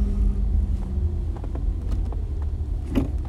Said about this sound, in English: I'm sorry, I'm driving past UPS.